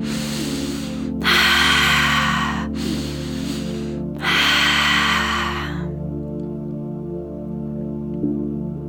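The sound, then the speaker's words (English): Slow breathing during a guided meditation: a few long, airy breaths in and out, loud and unhurried, over a steady, low musical drone that continues after the last breath. “Knowing that you can speed up the breath or slow down the breath, whatever feels best for you.”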